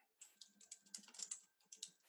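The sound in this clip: Fingers type on a computer keyboard in a quick, irregular run of many faint, crisp key clicks, with brief pauses between bursts and no talking.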